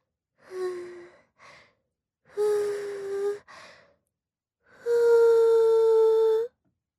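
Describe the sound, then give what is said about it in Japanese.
Breath is blown onto a nipple in a few breathy, voiced exhalations with short puffs between them. The last blow is the longest and most sustained, and there is no talk. “乳首に息を吹きかけられるのはどうだ？”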